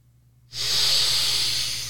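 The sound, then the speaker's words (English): A single long, steady breath from a guided breathing exercise of nose inhales and mouth exhales. A soft, airy hiss starts after a short silence and holds evenly to the end, with no talk. “Breathe in through the nose and hold it for 7 seconds. And breathe out through the mouth for 8 seconds.”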